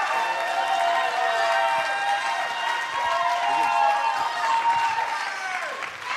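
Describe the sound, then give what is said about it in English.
Sustained applause from an audience welcoming a spoken-word performer at a church fine arts showcase, a dense, steady wash of clapping that lasts throughout, with faint voices in it. “So what I want you to do is put your hands together”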